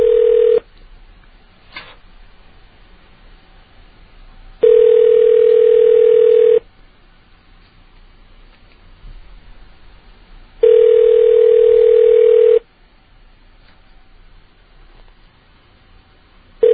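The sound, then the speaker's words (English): A telephone ringback tone on a call to a busy convenience store in Iowa: a steady mid-pitched buzzing tone about two seconds long repeats after four-second gaps of quiet line hiss, with a small click between rings. “Calling a 7-Eleven in Iowa, apparently a busy 7-Eleven, that might be forwarding to voicemail, in fact.”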